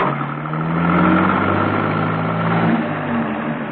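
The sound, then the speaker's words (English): A car being driven gives a steady low engine drone mixed with road rumble, with a slight dip in engine pitch near the end and no voices. “She was being driven, blindfolded, by Manners along a route that Steed would have given a great deal to know.”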